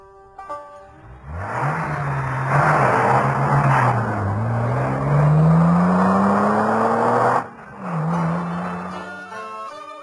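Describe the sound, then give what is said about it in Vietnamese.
A car engine starts, then revs and pulls away, its pitch climbing steadily as it accelerates. After a brief break, apparently a gear change, it resumes at a lower pitch and keeps driving. “Đến khi chiếc xe chở họ chạy khúc xa, cô đứng ngó theo cho tới chừng xe quẹo khuất rồi”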